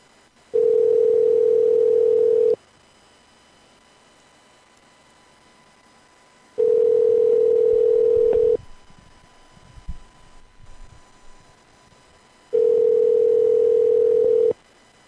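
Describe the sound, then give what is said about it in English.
A telephone ringback tone sounds during a call: three long, steady, mid-pitched tones of about two seconds each, separated by quiet gaps of roughly four seconds, with faint rustling noise in one gap. “I like the part where the phone rings.”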